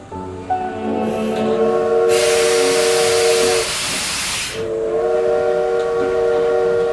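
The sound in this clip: A steam train whistle sounds as a steady cluster of bright, layered tones. In the middle, a loud rush of hissing steam briefly drowns it out, then the whistle carries on alone.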